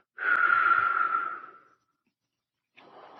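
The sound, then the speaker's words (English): A slow exhale through the mouth, like a gentle wind, during a relaxation breathing exercise: one soft, breathy whoosh lasting about a second and a half that steadily fades away, followed by silence. “Then you'll let the air out through your mouth when I say relax, as though a gentle wind were blowing, so that it sounds like this.”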